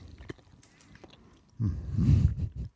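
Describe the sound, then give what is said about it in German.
Biting and chewing an After Eight chocolate mint: a few faint clicks, then a loud, dense burst of crunchy, moist chewing noise that lasts about a second before tapering off. “Ich probiere hier das After Eight.”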